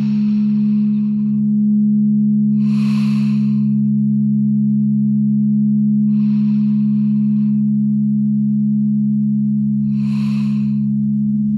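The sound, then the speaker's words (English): Breathing in and exhaling during a guided meditation: four soft, airy breath sounds spaced a few seconds apart over a steady low hum. “Breathe in and exhale out the sorrow, the overwhelm, a couple of times.”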